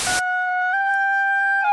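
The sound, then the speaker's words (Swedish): A simple homemade bagpipe built from a recorder plays a steady, reedy two-note drone that shifts slightly in pitch partway through, heard alone after a short burst of noise at the start. “Ja, fantastiskt heliga toner. Det där, det är en enkel säckpipa. Det är ganska lätt att bygga en sån här.”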